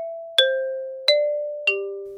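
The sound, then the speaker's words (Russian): An apartment doorbell plays a simple, slightly out-of-tune melody of three clear chime notes. Each note strikes sharply and then slowly fades, and the last note is the lowest. No voices are heard. “Скромный чиновник решительно позвонил в дверь.”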